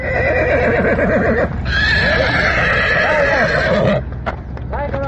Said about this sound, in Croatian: Tu sudbinu izbjegli su konji jednog gazde iz Mislođina, koje smo sreli na lokalnom putu kada su uplašeni vraćani u štalu.